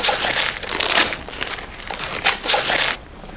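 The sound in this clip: Wrapping paper crinkles and tears as someone rips open a wrapped present, a run of bright, crackly rustling bursts that swell and fade several times before dropping off near the end.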